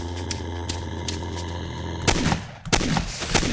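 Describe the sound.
Weapon fire in a zombie video game: a series of evenly spaced shots over a steady hum, then two louder, heavier blasts.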